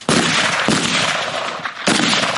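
Gunshots from rifles fired by civilians at shooting practice after basic weapons training: a few loud, sharp cracks, each followed by a dense, lingering wash of noise, with no talk over them.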